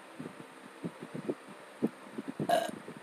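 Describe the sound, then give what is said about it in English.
A single wet burp rises abruptly near the end, loud and brief, after a run of soft, low thumping pulses in the background. “I'm sorry about that. That was a burp. That was not supposed to happen.”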